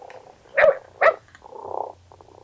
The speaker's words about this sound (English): This cat is purring.